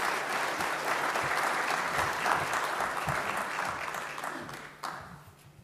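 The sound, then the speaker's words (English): An audience applauds in warm, sustained clapping to welcome a speaker at a Sunday morning church service, a steady dense patter that thins and fades toward the end. “Why don't you put your hands together and welcome him.”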